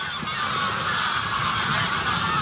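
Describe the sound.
A flock of geese honks in a dense, continuous, overlapping clamor of harsh calls, loud and unbroken throughout.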